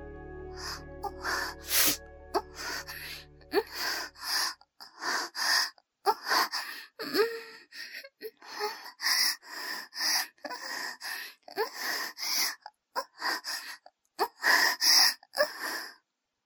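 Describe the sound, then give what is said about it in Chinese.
A woman moaning in many short, breathy vocal bursts mixed with gasps, repeating at an uneven rhythm, with a low steady hum under the opening seconds. “我不由得又呻吟了起来。”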